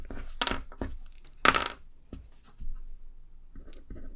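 Dice being rolled across a surface, producing a few quiet, brief clattering clicks and knocks separated by short pauses.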